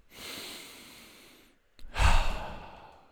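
A deep breath: one long, airy inhale, a brief pause, then a louder, forceful exhale, alone with no talk.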